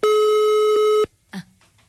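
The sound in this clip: A phone call rings unanswered: one long, steady ringback tone, then a voice speaks briefly in the silence after it.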